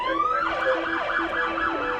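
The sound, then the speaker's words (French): An emergency vehicle speeding with its flashing beacon on sounds its siren, a loud wail that rises and falls in rapid repeated cycles without a break. “je vous assure, là, on est en train de foncer avec le gyrophare branlant et voilà.”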